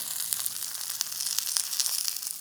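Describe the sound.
Fried eggs cook in oil in a pan with a steady, fairly faint hiss and crackle. Many small sharp pops speckle the sizzle throughout.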